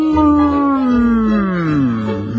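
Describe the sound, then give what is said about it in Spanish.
A voice imitates a horn blown to call a moose with one loud, sustained droning tone. It holds steady for about two seconds, then sags lower in pitch near the end. “El francés dice: Pierre, toca el cuerno. Pierre toma el cuerno y”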